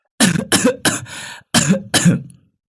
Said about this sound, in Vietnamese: ho vài cái rồi trả lời